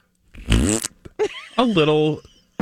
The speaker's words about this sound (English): something that's labeled fart bag sounds like this.